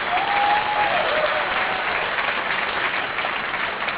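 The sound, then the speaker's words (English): Audience applause at an Alcoholics Anonymous convention: steady, dense clapping from a crowd that continues evenly throughout. “I assume the applause were the ones who were here.”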